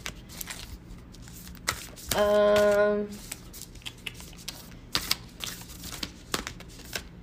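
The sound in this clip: Tarot cards are shuffled and flop out of the deck, with a loud riffling burst of about a second in the middle and scattered light taps and clicks before and after.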